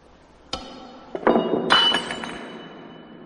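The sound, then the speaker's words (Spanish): A stemmed wine glass is knocked over at a meal and breaks: a sharp knock, a brief clatter, then a bright crash of glass whose ringing shards fade out, with no voices. “Alarga la mano para coger algo y tira la copa.”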